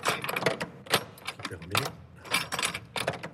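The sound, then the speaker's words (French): The key of a cathedral treasury is handled, producing many irregular metallic jangles, clinks and clicks that come in quick, uneven bursts. “Alors c'est vous qui avez les clés, Philippe Piégel. Et voilà, la clé du trésor.”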